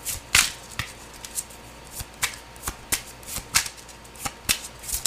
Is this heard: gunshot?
no

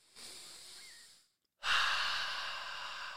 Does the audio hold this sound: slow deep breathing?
yes

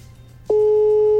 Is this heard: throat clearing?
no

